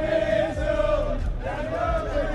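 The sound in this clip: A stadium crowd gives an ovation as a performer arrives, a dense, continuous roar of cheering and voices with tonal chanting running through it.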